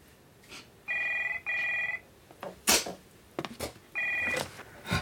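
A telephone rings with bright electronic trills: two short bursts close together, a pause filled with a few clicks and knocks, then a third burst. The rings are loud and clear, with no talk over them.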